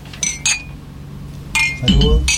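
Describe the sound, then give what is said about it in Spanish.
Drinking glasses clink together in a New Year's toast, a few bright, ringing chimes spread over a couple of seconds, with people talking around them. “vamos a hacer un brindis por un lindo final y un mejor comienzo y un año lleno de cosas lindas. ¿Eh? Salud. Salud. Salud. Salud. Salud.”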